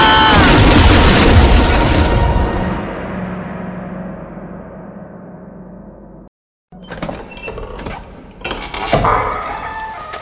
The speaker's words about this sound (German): Die Hütte bricht bald auseinander! Aber wir werden verbrennen! Nein! Die Flammen sind noch ziemlich schwach! Ziemlich schwach? Die Balken explodieren schon!